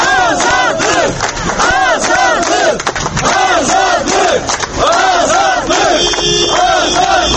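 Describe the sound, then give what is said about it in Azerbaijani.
Supporters gathered outside a courthouse chant freedom slogans, many voices shouting together in a loud, rhythmic, repeated cadence that carries on almost without pause. “Məhkəmə binasının qarşısına yığışmış tərəfdarlar onları azadlıq şüarları ilə alqışlayırdılar.”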